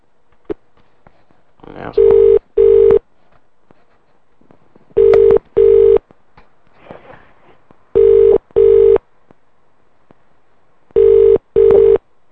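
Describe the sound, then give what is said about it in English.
A telephone rings as a call is put through to a hotel's on-site restaurant, sounding four loud, evenly spaced double rings in a steady mid-pitched tone over faint background noise. “Please answer the phone, bartender.”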